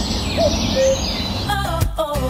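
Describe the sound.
Birds singing short whistled notes that alternate in pitch, a few clear tones spaced over a couple of seconds above a soft noisy background.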